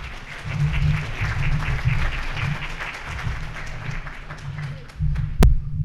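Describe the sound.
Applause from an audience welcoming a speaker to a presentation on Book of Mormon geography, steady clapping with a throbbing low rumble underneath, dipping briefly before swelling again near the end.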